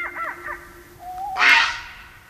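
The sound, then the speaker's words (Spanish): An eagle owl hooting in mountains during the breeding season gives a low, steady, drawn-out hoot. Brief higher calls come early, and a short, harsh, noisy burst follows near the end. “Y esta es la acústica, el búho dice bú, el eco, y la montaña estira su voz y dibuja el espacio.”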